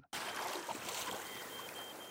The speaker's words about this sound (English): We are at Cape Town Harbor. At barely 7 meters long, the boat in front of me looks surprisingly small for such an epic voyage.